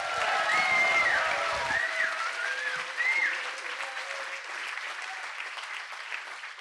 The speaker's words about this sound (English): Please give her a very warm Greenbelt welcome.